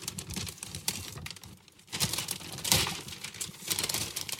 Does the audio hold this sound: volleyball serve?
no

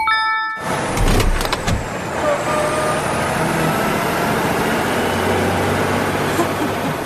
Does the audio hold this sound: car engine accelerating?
yes

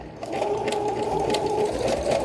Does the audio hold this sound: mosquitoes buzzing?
no

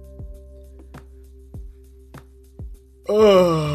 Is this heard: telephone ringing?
no

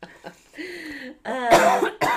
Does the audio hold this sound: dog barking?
no

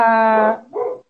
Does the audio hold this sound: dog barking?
yes

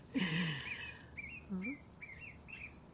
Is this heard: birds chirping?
yes

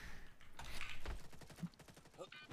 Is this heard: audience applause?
no

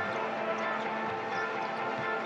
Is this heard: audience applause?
no

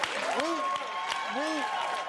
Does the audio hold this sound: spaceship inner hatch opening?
no

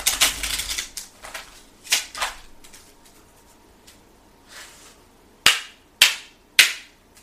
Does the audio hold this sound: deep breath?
no

